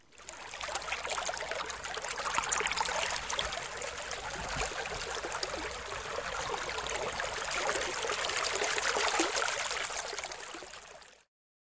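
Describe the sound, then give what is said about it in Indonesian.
Rippling river water flows continuously, a dense, bright hiss of small splashes and trickles that holds a steady level for about eleven seconds before cutting off. “Kalian bisa menyebutkan suara air sungai yang beriak-riak.”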